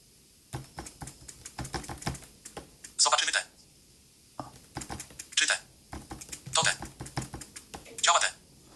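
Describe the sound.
Clicking keys of a BrailleNote Touch Plus braille notetaker being typed on, with quick taps in several clusters separated by short pauses and brief hissy bursts between them.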